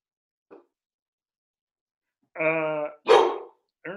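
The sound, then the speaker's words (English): A dog barks a few times: one faint, short yelp, then two loud, full-voiced barks in quick succession and the start of another, with no talking. “That's a dog.”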